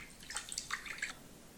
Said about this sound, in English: let me wash your legs now. Hopefully this feels nice and soothing.